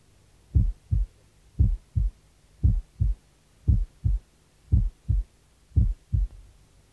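Normal heartbeat heard at the left sternal border, six paired lub-dub beats at a steady slow rhythm, each second sound softer than the first, low-pitched thumps over a faint hum.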